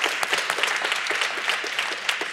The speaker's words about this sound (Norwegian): Kan vi få en applaus for det, eller?